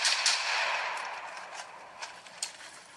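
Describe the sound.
Gunfire in a run-and-gun video game, a noisy wash of shots with a few sharper cracks standing out near the end, loud at first and then easing slightly.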